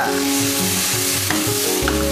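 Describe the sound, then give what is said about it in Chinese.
Yellow rice wine splashed along the edge of a hot wok of stir-frying onions, giving a loud, steady, crackling sizzle that fills the whole stretch without pause and with no talking. “黄酒， 这个黄酒咱们做这个时候送锅边上 啊，锅边溜，”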